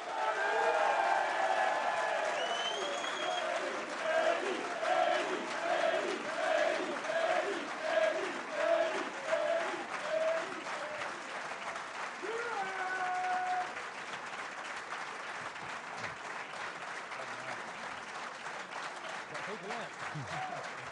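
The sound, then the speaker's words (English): A live audience in the Balfour Suite claps and cheers at a football club's new-season preview. Dense, loud applause lasts about thirteen seconds, then eases to a quieter level. A voice speaks over the crowd. “So as you can tell, we have an audience in the room this evening here in the Balfour Suite who are very excited about the new season.”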